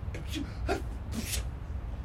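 A sneeze from someone hidden inside a cupboard: a couple of short, breathy gasps build to one sharp, hissing burst. It is faint and muffled, with no other sound.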